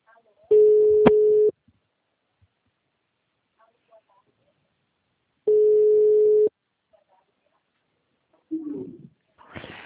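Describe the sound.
A telephone rings on a call: two long, steady beeps of equal pitch separated by a few seconds of silence, followed at the end by a brief burst of voice.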